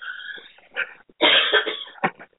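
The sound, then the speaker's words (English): A coughing fit: several harsh, loud cough bursts in close succession, with no talk. “I'm just trying to hold this coughing fit off for another 6 minutes.”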